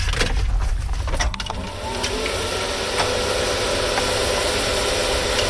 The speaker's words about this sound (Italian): Aurel Neff, l'ideatore del robot, collega le batterie, gira la chiave e schiaccia il bottone d'accensione